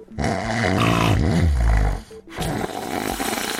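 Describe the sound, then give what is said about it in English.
Snoring rumbles as a loud, rough, low rasping snore that swells toward the middle and cuts off briefly, then resumes as a softer, steady rasping stretch. “is snoring bad for your health?”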